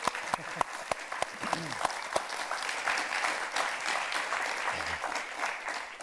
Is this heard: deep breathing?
no